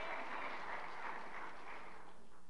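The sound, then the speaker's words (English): Congregation applause for the pastors during a church sermon, a short burst of dense, steady clapping that holds at an even level throughout. “Give them a hand.”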